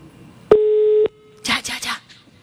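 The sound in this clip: A telephone line tone sounds as one steady electronic beep lasting about half a second, followed by a brief burst of voice.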